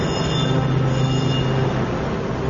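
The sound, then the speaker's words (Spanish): An underground metro train in Istanbul, about 30 metres below ground, gives a loud, continuous rumbling roar that holds steady throughout with no break and no voices. “a unos 30 metros bajo tierra, el equivalente a un edificio de 10 plantas, hasta las entrañas del metro de Estambul.”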